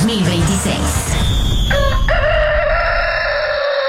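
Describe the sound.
A rooster-crow sound effect gives a sustained, tonal, cock-a-doodle-doo-style cry in the second half. Energetic talking fills the first part, and the crow rings on loudly to the end.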